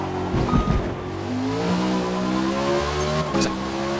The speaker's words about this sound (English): Thanks for playing Forza Motorsport. 2024 Ford Number 88 Mustang RTR. Drive type RWD.